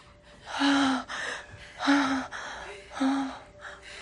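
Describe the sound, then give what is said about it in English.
A woman gasps three times in sharp, voiced intakes of breath, evenly spaced, with quieter breathing between them. “Friday covers her head as Saturday gasps.”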